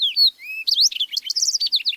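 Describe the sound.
Song of a fox sparrow nesting in the shrubby cover of a western avalanche chute: a few clear, slurred whistles open, then a rapid, bright run of high chirps and trills, loud and alone.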